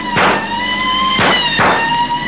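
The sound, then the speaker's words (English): Police car sirens in a chase sound as one loud, steady wailing tone with rich overtones. Three heavy rushing bursts cut through it, and no one speaks. “One, two, three fast police cars try to close up the distance between them.”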